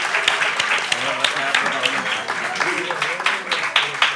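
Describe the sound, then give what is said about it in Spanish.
Scattered audience clapping at a radio project presentation: sharp, irregular claps rising above voices that keep talking throughout, moderately loud and uneven in rhythm. “aplaudís si queréis, ¿eh? Es para ellos y para ellas.”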